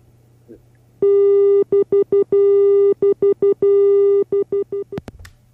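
A telephone busy tone after a dropped phone call: a loud mid-pitched electronic beep that starts after a second of quiet, then cuts in and out in pulses of uneven length before a sharp click ends it.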